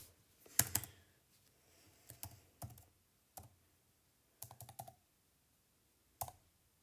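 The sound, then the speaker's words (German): Typing on a computer keyboard: a few sparse, irregular keystroke clicks, some single and one quick cluster of several taps, with quiet gaps between them and no talking. “ich kann nicht auf dieser Tastatur schreiben. Ich bin einfach zu dumm dafür.”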